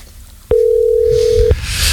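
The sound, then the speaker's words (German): Telephone tone while dialing to call someone back: a single steady electronic beep lasting about one second, sounding alone against faint background noise. “Na, warte, ich ruf dich zurück. Ich ruf dich zurück, Kollege.”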